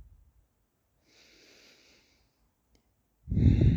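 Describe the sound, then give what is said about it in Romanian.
Deep breathing in and out during a guided calming exercise: a faint, soft airy breath, a quiet pause, then a much louder rushing breath starting near the end and carrying on to the close. “Inspiră și expiră de 3 ori. Un pic mai adânc decât de obicei.”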